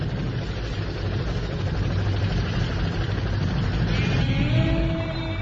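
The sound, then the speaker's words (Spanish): A car engine runs with a steady low rumble and a broad, even hiss of mechanical noise throughout, moderately loud with no clear change in pace. “Paren ahora mismo el motor y pongan las manos en lugar visible.”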